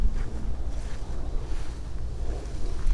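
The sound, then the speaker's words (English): Shifting wind on open water while sailing makes a steady low rush with buffeting against the microphone. It continues throughout with no voices. “The wind is unusual. It comes up, it comes down, it's changing directions.”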